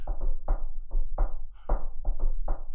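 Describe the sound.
Knocking on a table, a rhythmic series of short knuckle raps with dull low thumps, tapped out in an uneven pattern like a melody.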